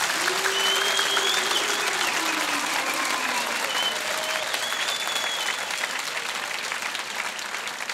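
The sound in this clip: An audience claps steadily in rhythm on request during a devotional chant praising Ali. The dense, continuous clapping runs throughout beneath a sung voice.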